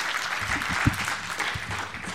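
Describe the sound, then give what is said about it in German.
A conference audience applauds a speaker with dense, sustained clapping from many people at a fairly even level, with a few heavier low thumps mixed in. “Einen runden Applaus.”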